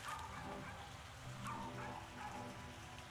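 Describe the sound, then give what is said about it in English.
A small dog yaps in the background, a few faint, high, sharp yips spaced irregularly over a steady low noise bed. “on the dog barking in the background. I can't help but correlate this little yapping dog”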